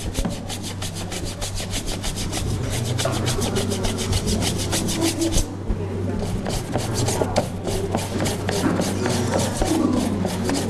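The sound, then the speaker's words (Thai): Scrubbing of a surface that was soaked in a mixture with water, to see if the dirt comes off: many quick, rasping back-and-forth strokes in a steady rhythm, with a brief pause midway before the scrubbing resumes. “แล้วก็ทำการขัดเอาขัดดูก่อนว่าออกไหม”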